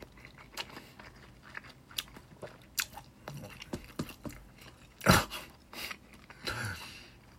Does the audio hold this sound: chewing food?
yes